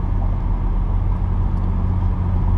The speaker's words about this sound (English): And it is Friday, and I'm driving.